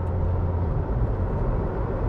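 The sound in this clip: A Ferrari SF90 Stradale hybrid driving in electric mode gives a steady low rumble of road and tyre noise with no distinct engine note. The level stays even throughout and no one speaks.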